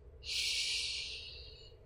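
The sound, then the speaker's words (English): A full, deep inhale during a guided meditation: one long breathy rush of air that swells quickly, then slowly tapers over nearly two seconds, quiet and alone without any talk. “Take a full, complete inhale.”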